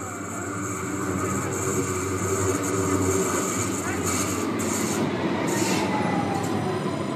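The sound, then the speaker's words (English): A Stuttgart subway train runs with a steady, loud rumbling roar and a thin, high wheel squeal above it, continuous from start to finish. “that was the sound of one of the Stuttgart subway trains.”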